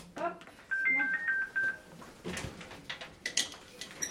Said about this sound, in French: C'est le téléphone qui nous dit quand un résident appelle sur une sonnette.